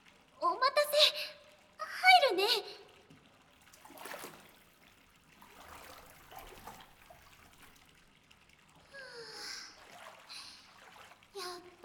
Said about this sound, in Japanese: 私も体を流したらそっち行くね。